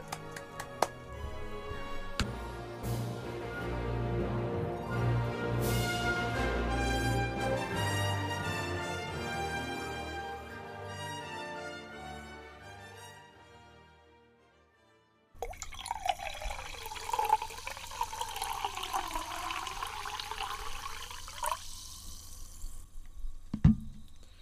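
A drink is poured live, with liquid gurgling, splashing and dripping almost continuously, and a bubbling filling sound in the second half that shifts in pitch as the vessel fills.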